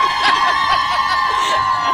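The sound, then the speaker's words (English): Crowd noise from a large live audience at a women's event: a steady, diffuse murmur that holds at an even level throughout, with no single voice standing out. “maybe you might hear some crowd in the background”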